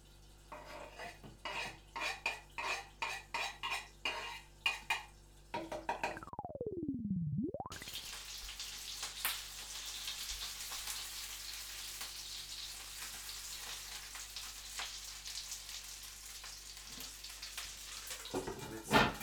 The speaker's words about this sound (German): Butter ist im Topf, Frühlingszwiebeln und Knoblauch kommt in den Topf. Ich drehe mal noch ein bisschen hoch.